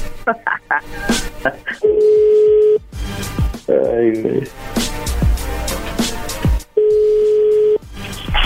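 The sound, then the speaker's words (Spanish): Telephone dialing and line tones during a phone call: quick electronic beeps, then two sustained steady tones, with voices talking and laughing between them. “A ver, ahí se está marcando de nuevo.”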